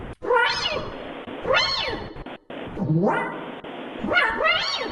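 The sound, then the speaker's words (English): A cat meows several times, each meow drawn out with a rising then falling pitch, separated by short pauses and loud against faint background noise. “A kitty cat.”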